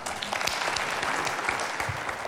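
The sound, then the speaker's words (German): Warm applause from a studio audience after a speech on a German television program, many hands clapping in a continuous, even roar from start to finish. “Herzlichen Dank für Ihren warmen Applaus, meine Damen und Herren, hier im Studio.”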